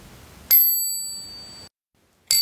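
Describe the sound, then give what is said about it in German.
A bicycle bell built into the handlebar between grip and brake lever gives a bright metallic ding that rings on for over a second before fading, then strikes again at the end. “Das ist die Cobell. Oh. Genauso integriert wie alle anderen Komponenten auch. Schön auf dem Lenker zwischen Griff und Bremshebel.”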